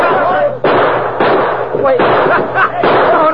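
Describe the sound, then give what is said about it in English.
Revolver gunshots ring out in a western radio drama as a new sheriff fires fast at a gunman in town, several sharp bangs at uneven intervals over voices talking. “The new sheriff can handle a gun, folks. But he sure does it mighty fast.”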